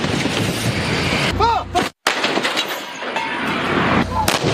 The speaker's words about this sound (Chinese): 官兵们灵活运用等速射、急速射等多种打击方式，对不同距离、不同性质的目标实施精准火力覆盖